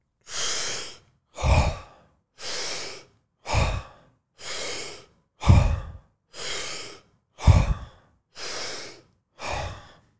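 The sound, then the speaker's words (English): A person does deep oxygenating breathwork: five rounds of a long airy inhale followed by a forceful, lower-toned sighing exhale, ten breath sounds in an even rhythm with short silences between them. “We're really just going to flood the blood with oxygen. And we're going to do 3 rounds of 5 breaths. So they're going to look like this.”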